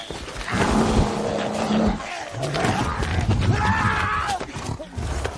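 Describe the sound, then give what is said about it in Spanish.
A wounded bear attacks and drags a man, with loud, continuous growls, roars and snarling grunts that churn without pause and shift in pitch as the struggle goes on. “El animal, Herido, le salta encima y lo arrastra.”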